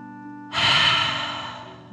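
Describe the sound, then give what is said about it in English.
One deep, breathy exhale during a guided relaxation exercise: a soft rush of air that swells suddenly and then slowly fades, over faint steady background tones. “Let them settle down into the grass and breathe like a dragon, in and out.”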